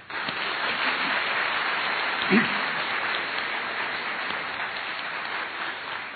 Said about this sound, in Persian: برش دست بزنم